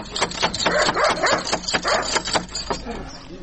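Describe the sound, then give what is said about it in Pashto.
A fierce, biting dog barks behind a door, letting out many rapid, loud barks in a dense, uneven volley that eases slightly toward the end. “اوهو، دا څه بد سپی لري چې مونه داړي. هله دروازه را پورې که چې سپی را ونه وځي.”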